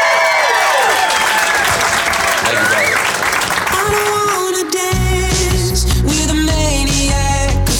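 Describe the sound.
A Portland audience applauds and cheers for Macklemore with loud, dense clapping and whoops, and music comes in partway through under the continuing applause.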